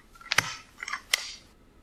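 A stapler is pressed as the sound in a guessing game, giving a few quick, crisp mechanical clacks in short succession. The clicks are fairly faint and have nothing else around them.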